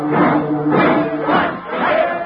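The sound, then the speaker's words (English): An angry crowd of football rooters gathered outside the Yale dressing room shouts in unison, a loud, surging chant that rises and falls in a few waves. “An angry crowd of rooters is gathered in front of the Yale dressing room”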